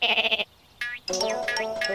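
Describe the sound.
Sheep bleat three times, loud and close together. The first bleat is tremulous and pulsing. After a short gap comes a brief second cry, then a longer, wavering third bleat, with no voices.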